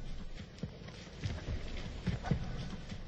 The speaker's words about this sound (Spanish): Un caballo viene hacia mí.